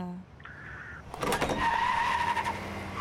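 A car engine surges into loud motion after a quieter opening second, its broad rumble and rising whoosh holding steady to the end.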